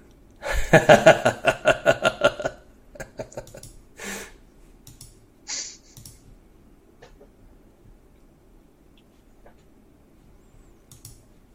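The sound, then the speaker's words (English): Many dice clatter as they are rolled together for a spellcasting roll in a tabletop role-playing game: a dense burst of rapid, sharp clicks, followed by a few scattered, fainter clicks as the dice settle. “Am I rolling too many dice? Is that what's happening?”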